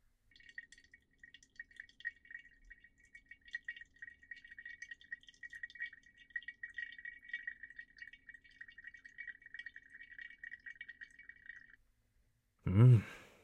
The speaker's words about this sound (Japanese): そこにお湯を円を描くように入れる。